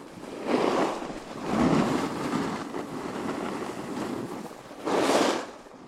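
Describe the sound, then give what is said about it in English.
Skateboard wheels roar as the rider carves down a steep hill. The steady rolling rumble swells into a few loud, broad whooshing surges, one for each carve, and no voices are heard. “The hill got steeper, and I began carving, creating the sound, I'd imagine, as the main element of the recording.”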